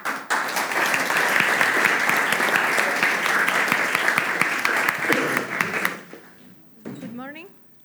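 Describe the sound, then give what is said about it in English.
An audience claps steadily in a dense, even patter for about six seconds, then the applause fades away and a single voice begins speaking. “you ready to clap?”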